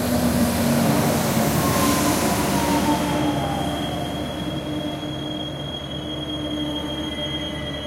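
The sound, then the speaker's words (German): A regional train pulls into a station platform with a steady heavy rumble and high wheel squeal. The level eases gradually as it slows. “Gleis 5, Einfahrt ME nach Cuxhaven über Buxtehude. Abfahrt 7:24 Uhr. Vorsicht bei der Einfahrt.”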